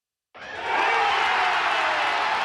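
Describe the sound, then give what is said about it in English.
Baseball fans cheer at Truist Park as the Braves get the final out of a win over the Philadelphia Phillies; a loud crowd roar swells in after a short silence and holds steady. “That's the sound of fans at Truist Park celebrating the final out of last night's Braves win against the Philadelphia Phillies.”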